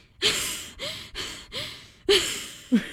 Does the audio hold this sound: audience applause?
no